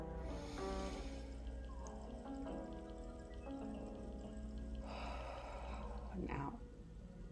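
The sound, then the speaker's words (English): A deep breath drawn in through the nose during a guided breathing exercise, heard as a soft, airy rush near the end over steady, quiet background tones. “Okay, ready, deep breath, ready, okay, in.”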